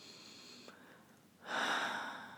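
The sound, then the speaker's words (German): A deep breath taken during a guided meditation: quiet at first, then one long, airy breath swells up about halfway through and slowly fades. “Und falls es Anlaufschwierigkeiten geben sollte, dann atme nochmal tief ein”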